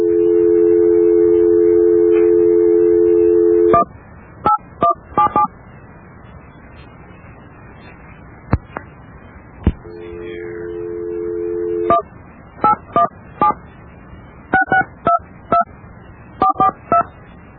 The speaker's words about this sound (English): Well, we've dialed the number.